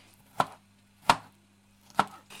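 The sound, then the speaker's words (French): Knife chopping a tomato while making a risotto: three sharp, crisp chops, spaced roughly evenly, over a low steady hum. “Et je vais couper la tomate.”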